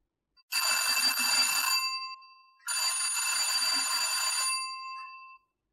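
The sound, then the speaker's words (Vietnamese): An electric doorbell rings insistently in two long, bright, buzzing bursts separated by a brief gap. The first fades slightly before the second begins, with no talk. “Một loạt tiếng chuông cửa đáng ghét mãi không chịu tắt truyền vào trong tay.”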